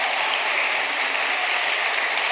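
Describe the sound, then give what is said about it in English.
Audience applause at a storytelling event during a writers festival: thick, continuous clapping at a steady level from start to finish, with no voices above it. “Can we have another round of applause for what a beautiful collection of stories tonight? While you're applauding”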